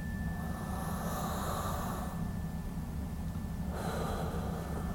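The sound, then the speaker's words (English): A deep breath drawn in and then let out during a guided breathing exercise: a long, airy rush of breath with broad hiss, fairly loud and steady, heard alone without talk. “Breathing in all you need for the week, exhaling out everything that no longer serves you”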